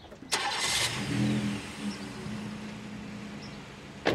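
A van's engine starts and pulls away. A low, steady engine rumble carries on throughout, with a sharp click near the start and another at the end, all fairly quiet.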